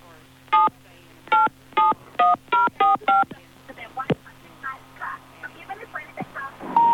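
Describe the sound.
Telephone keypad tones dial a number, seven sharp, clear beeps at varying pitches in a quick, slightly uneven run, followed by men talking over a faint background hum.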